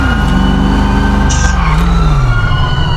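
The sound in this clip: An emergency vehicle siren sounds outside, steady and loud throughout, its wailing tone sliding lower in pitch over a constant rumble of engine and traffic.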